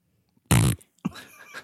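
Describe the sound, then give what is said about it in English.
A fart lets out right into a microphone: one loud, low, buzzy blast lasting about a quarter second, followed after a short pause by quieter rustling noise. “That was a fart. That was a fart in the mic.”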